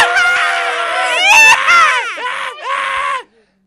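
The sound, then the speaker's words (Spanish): A man screams at a political rally in Cincinnati, Ohio, during a party's Super Tuesday primary contest: a long, loud, raw yell with wavering pitch and brief breaks, cutting off abruptly near the end. “¿cómo grita ese? Como perros en celo, estos muchachos de Ohio, Cincinnati.”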